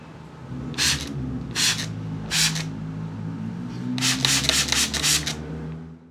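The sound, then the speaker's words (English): Spray bottle spritzing: three separate short hissing bursts, then a quicker run of several more sprays, all over a low steady background hum. “Spritz, please.”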